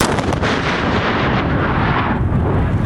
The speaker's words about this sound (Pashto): تازه د کندهار روزګان پر لوی لار کشف شوی ماین ته چاودنه ورکړه